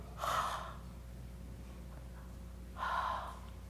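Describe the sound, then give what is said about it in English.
A voice imitates breathing out onto people, with two short, forceful, breathy exhalations about two and a half seconds apart and a quiet gap between them. “Jesus breathes on them the Holy Spirit. Jesus gets up close to them and goes,”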